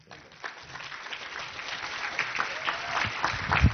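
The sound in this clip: A seminar audience welcomes the speaker with applause that starts thin and swells into a full, steady patter of many hands, growing slightly louder toward the end.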